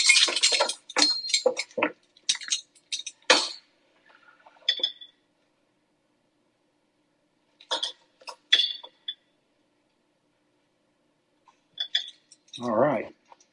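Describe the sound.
Metal measuring spoons clink during home cooking: a quick run of light, bright clinks and taps, then a few sparse, quieter ones after a pause.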